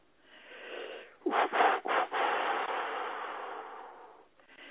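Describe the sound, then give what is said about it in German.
Deep breathing during a guided group relaxation exercise: a long, airy, hissing breath swells and holds for several seconds before fading, soft and breathy with no speech over it. “Also, einatmen, ausatmen, weit werden.”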